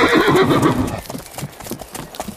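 A Shetland pony neighs and its hooves clip-clop during a ride: a loud, shrill whinny opens, then fades into a series of quieter, uneven hoof knocks that continue alone.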